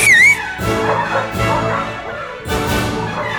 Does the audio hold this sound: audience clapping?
no